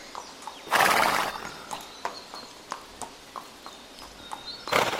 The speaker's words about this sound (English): Oh, there's the ponies. It's nice to hear you guys.